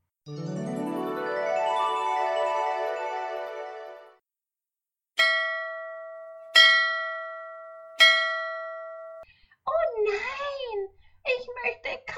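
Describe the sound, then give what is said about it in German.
A bell is struck three times at even intervals, each strike a bright, clear ring that slowly fades before the next. A child's voice follows the last ring. “Glocke.”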